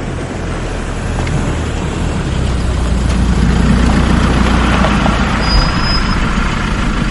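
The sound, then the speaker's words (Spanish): A car engine idles in a steady low rumble in an African setting, with no voices, its drone holding even and swelling slightly in loudness partway through. “John se acerca al coche que baja la ventanilla.”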